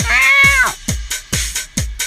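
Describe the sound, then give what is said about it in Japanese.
A person imitates a cat, giving one long, drawn-out, tonal meow followed by several short, clipped, repeated cat-like sounds. The voice is clear and fairly loud, with no other talk. “これから私が16のセリフやシチュエーションを言いますので、そのセリフシチュエーションに合わせて猫になりきって泣いていただきます”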